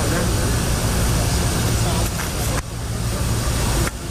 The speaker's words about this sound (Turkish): Ardından Erdoğan ve beraberindekileri taşıyan uçak Kazakistan'ın başkenti Astana'daki Nur Sultan Nazarbayev Havalimanı'na indi.